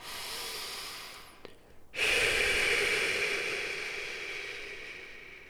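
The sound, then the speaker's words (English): A breath drawn in, then a long, steady hiss of air exhaled through the teeth that slowly fades over several seconds, with no talking. “Breathe in and exhale through those teeth.”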